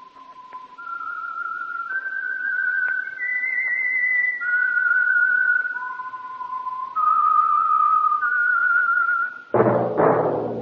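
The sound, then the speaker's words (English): A solo whistled theme tune in clear, pure tones that step between sustained notes for about nine seconds. A short, louder burst of fuller sound ends it. “tonight, as usual, the Whistler theme by the real Whistler will sound like this.”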